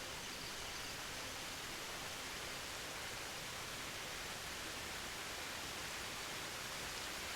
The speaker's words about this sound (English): sound of water as it falls over the cliffs above the trees. A magnificent waterfall comes into view.